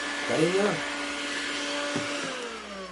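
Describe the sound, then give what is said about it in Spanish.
A vacuum cleaner drones steadily as a woman cleans a kitchen, giving a constant humming whine throughout with a brief voice near the start. “La mujer limpia la cocina con un aspirador.”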